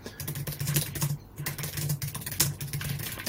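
Typing on a computer keyboard: quick, irregular clicking keystrokes in a soft, steady stream with one brief pause, heard alone without talk.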